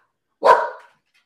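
A single loud dog bark, short and sharp, standing alone against silence.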